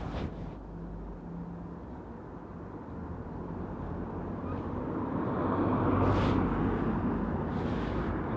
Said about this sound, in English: Wait to see where this car's going here.